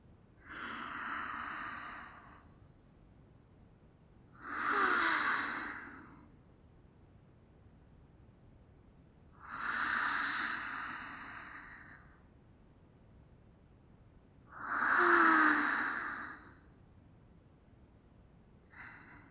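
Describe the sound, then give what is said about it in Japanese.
Deep, relaxing breathing, in and out, with four long airy breaths evenly spaced about five seconds apart and the start of a fifth at the end. The breaths are soft and alone, with quiet pauses between them. “それでは、私に合わせて深呼吸しながら、肩の力を抜いてください。”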